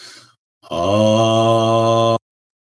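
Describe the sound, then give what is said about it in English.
A single long chanted "ah" vowel during a heart-center chakra meditation: a steady, sustained voiced tone with rich, even harmonics, holding one pitch for about one and a half seconds alone before stopping cleanly. “Let us chant.”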